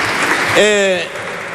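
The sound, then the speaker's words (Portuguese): Applause from a party's benches in a parliamentary chamber: steady, moderately loud clapping throughout, with a voice briefly calling out midway. “Aplausos da bancada do PSD.”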